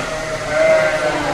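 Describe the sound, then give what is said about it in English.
Sheep bleating in a large open-ended barn at shearing time on a research and extension center farm: a single drawn-out, mid-pitched bleat rises from a steady background hum and then fades. “In a large open-ended barn at the UC Research and Extension Center about 8 miles east of Hopland, it's sheep shearing time.”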